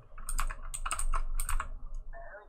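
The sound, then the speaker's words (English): Someone types on a computer keyboard: a quick, fairly soft flurry of many clicking keystrokes that trails off into a few last taps. “Okay, I'm gonna type it for you because I don't want to.”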